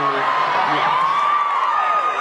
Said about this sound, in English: Don't cheer, you homophobes.